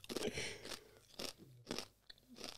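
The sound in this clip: Chewing a Three Kings cake (Dreikönigskuchen): a few crisp, crunchy chews in separate bursts with quiet gaps between them, no talking.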